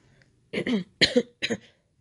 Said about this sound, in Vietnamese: sau đó nằm xuống bàn ho khan một hồi